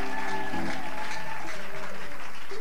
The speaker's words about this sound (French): Nous acclamons encore très, très fort le Seigneur, notre Dieu.